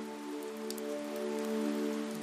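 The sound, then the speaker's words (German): Soft, steady rain with raindrops falling as an even, faint hiss, accompanied by a sustained low musical drone with no gaps or distinct drops. “Und die Regentropfen auf deinem Gesicht fühlen sich erfrischend und sanft an.”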